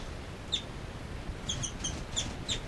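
Birds calling, heard as a few short, faint, high-pitched chirps and tweets that come more often in the second half, over a soft steady background hiss.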